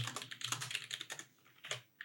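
Someone types on a computer keyboard to note down topics, with quick runs of soft keystrokes, a short pause and then a few more taps, very quiet.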